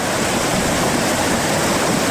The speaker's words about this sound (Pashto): د دوی په خبره چې اوس هم په خوړ کې پریمان او بهیږي